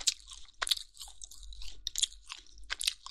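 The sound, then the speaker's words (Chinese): Wet, crunchy chewing of chewy, spicy meat, with a few irregular bites and squelches and no talk. “太好吃了，好有嚼劲啊，嚼给你听听，听到了吗？”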